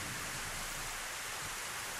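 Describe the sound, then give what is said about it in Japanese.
Heavy rain and cold wind from a sudden evening shower with large raindrops: a dense, steady hiss and roar that stays even and unbroken throughout, with no voices. “冷たい風がザザーッと吹き下ろしてきたかと思うと、大粒の雨が降り出した。夕立や、これは困った。”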